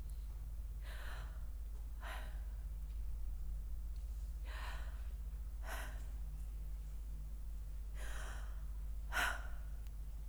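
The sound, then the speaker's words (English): Breathy exhales shaping the name Yahweh as pure breath, with the tongue never touching the mouth: about six soft, airy breath sounds at an even, unhurried pace, quiet and alone over a low, steady hum. “if you were to say the word Yahweh based on the transliteration of YVWH, your tongue would not touch your mouth. In other words, this is what you would say.”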